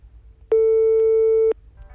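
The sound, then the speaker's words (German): After a number is dialed, a telephone line gives a single steady mid-pitched tone lasting about one second, loud and clear with nothing else over it. “Den nimmt man so hoch und da sind die Nummern drin und dann kann man wählen. Wie eine alte Wählscheibe ist das.”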